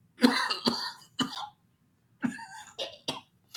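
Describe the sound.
Throat clearing by someone giving a talk on family duties and rights: a series of rough, voiced clears and coughs in two clusters separated by a brief pause, fairly loud against silence.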